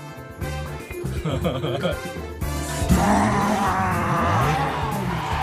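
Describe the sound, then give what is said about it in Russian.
A car pulls up sharply outside a dental clinic. Its engine roars throughout, and a tire skid swells in around the midpoint and stays loud to the end. “резко подъезжает на своей машине к центру стоматологии”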